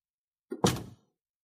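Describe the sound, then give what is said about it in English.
A door closing in a house, a light knock followed at once by a heavier, dull thud that fades quickly, heard alone against silence. “I close the door.”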